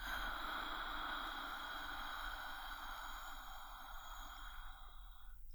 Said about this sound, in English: Deep breath in. Hold it. Long breath out.